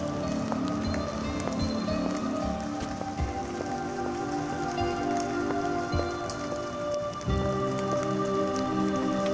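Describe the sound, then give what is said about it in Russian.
Steady rain falls and patters on a surface in a dense, even hiss of drops that holds at a constant level throughout, with no talking. “Пошел дождь.”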